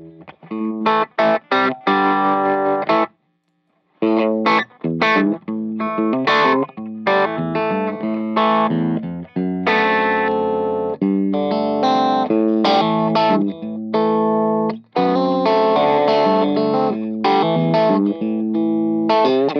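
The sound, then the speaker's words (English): Electric guitar, a largely stock Strat played without pedals, through an amp on an aggressive, distorted setting: loud, gritty strummed chords and riffs with sustained notes and a brief silent gap early on. “So I'm going to take the amp up a little bit in aggressive and change the tone just slightly with that attitude.”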